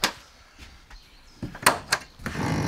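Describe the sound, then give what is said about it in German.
Hatches on a mobile food trailer being opened: several sharp clunks and clicks at irregular intervals, then a louder stretch of rushing, rattling noise at the end. “Ich will erstmal die Luken aufmachen.”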